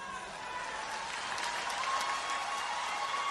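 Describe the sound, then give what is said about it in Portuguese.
A crowd gives a round of applause: a steady, dense wash of many hands clapping together, fairly faint, holding an even level with a slight swell toward the end. “E a outra salva de palmas.”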